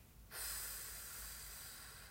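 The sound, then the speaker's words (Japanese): Deep breath during a guided breathing exercise: one long, soft, airy hiss that begins abruptly and holds steady to the end, with no talk. “最後吸ってたっぷり吸って吐きます”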